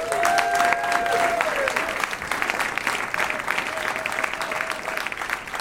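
An audience applauds as two co-hosts of an economics show are introduced, with loud, dense clapping that stays steady throughout and tapers slightly toward the end.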